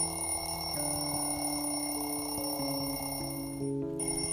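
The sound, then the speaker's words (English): An alarm clock rings in a steady, continuous, fairly faint tone whose pitch shifts in a few steps, with no talking. “ringing of an alarm clock. Today in the morning I heard this sound.”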